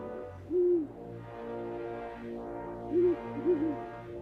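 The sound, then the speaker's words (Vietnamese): Owl hooting in the night: three short, rounded hoots, the first alone and the last two close together, rising clearly above a steady, low layered drone that runs under the whole clip. “Hai mắt của tôi từ từ díp lại, vẳng đâu đó có tiếng cú kêu trong đêm tối.”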